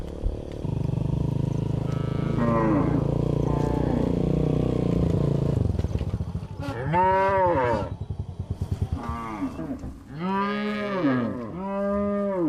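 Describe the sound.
A large herd of some 2000 cattle moos on grassland. Several long, deep, loud moos overlap in the second half, following a stretch of steady low rumble.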